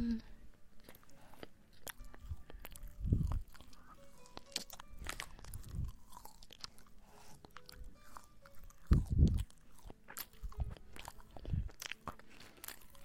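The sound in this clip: Crunchy biting and chewing of food offered by a grandfather: a few loud, sharp crunches stand out against softer, steady chewing throughout, with no talking.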